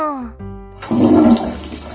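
A toilet flushes with a sudden loud roaring rush of water that surges up and then holds steady, after a brief tonal sound at the start.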